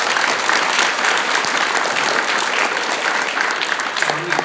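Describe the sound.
An audience gives loud, dense applause. Many hands clap in a steady, unbroken wash from start to finish.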